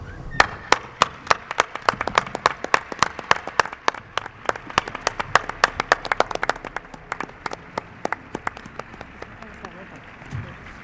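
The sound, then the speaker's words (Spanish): Audience applause near the end of a night's show: steady, rapid clapping with crisp, distinct claps that runs the whole time at a fairly soft level. “para Israel y para el gran Javier Pérez Campos, pues quizá el último aplauso de la noche.”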